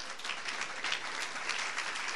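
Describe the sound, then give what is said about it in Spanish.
Applause from an audience during a Sunday church service, a dense, steady wash of many hands clapping that holds evenly from start to finish with no talking over it. “Puede sentarse, amado hermano. Dele ese aplauso al Señor.”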